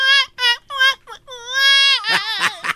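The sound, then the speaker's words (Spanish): A voice imitates a little girl crying: several short high wailing sobs, then one long drawn-out wail that breaks into choppy, trembling sobs at the end. “Y la niña ya no me decía, wow. Y así lloraba.”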